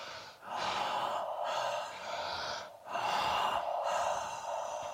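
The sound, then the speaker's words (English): Deep reset breaths in a guided breathing exercise: long, airy, rushing breaths separated by brief pauses, fairly soft and heard alone without talk. “So we're going to do two reset breaths.”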